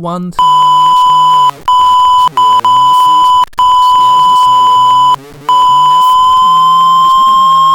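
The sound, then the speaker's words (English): Censor beeps cover a spoken address, a loud, steady high-pitched tone that runs almost continuously and breaks off for a few brief gaps, with speech faintly underneath. “I shouldn't read this person's address. So I'm gonna beep all that all out. So sorry for all that beeping you just heard.”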